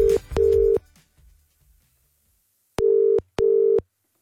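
Ringback tone on a telephone call to a hairdresser's salon: two double rings, each a pair of short, steady, mid-pitched tones, separated by a long silent gap.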